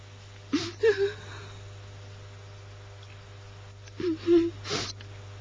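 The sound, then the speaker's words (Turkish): A person crying in two bursts of soft whimpering sobs and wet sniffles, separated by a quiet pause, over a steady low hum. “Neden ağlıyorsun? Bir şey mi oldu?”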